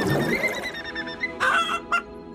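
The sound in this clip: A white hen clucks in a few nasal, honking calls: a longer stretch of calling at the start, then brief squawking bursts near the end.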